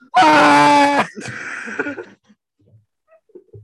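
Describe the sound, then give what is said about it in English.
A man's voice imitates another man screaming while violently pooping in a gas station toilet stall: a loud, strained scream of about a second, then a lower groaning moan that tails off into faint noises. “He's violently pooping. He's violently screaming while he's pooping in the freaking stall.”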